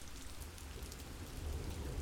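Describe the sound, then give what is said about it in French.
Rain falling in a steady, soft patter and hiss that is faint and continuous, with a low rumble underneath and no voices. “J'écoute le bruit de la pluie, pénétré, mesuré du souffle du dormeur.”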